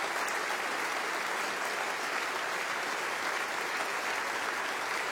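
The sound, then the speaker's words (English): Dense audience applause for an opera chorus and cast fills the whole stretch as steady, even clapping without a break. “He turns and applauds the chorus and the rest of the cast.”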